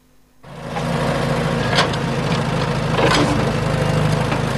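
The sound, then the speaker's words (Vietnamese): Trucks and excavators levelling ground at the construction site of the Hòa Tâm industrial park and Bãi Gốc port: after a brief quiet start, a steady engine rumble takes over, with a couple of sharper mechanical bursts along the way. “Trên công trường khu công nghiệp Hòa Tâm và bến cảng Bãi Gốc, không khí thi công đang diễn ra khẩn trương. Hàng chục xe tải, xe xúc cùng nhiều thiết bị cơ giới liên tục san gạt mặt bằng,”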